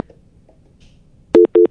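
A telephone busy signal sounds while a radio station's phone lines are checked: two short, even beeps of a steady mid-pitched tone, with quiet just before them.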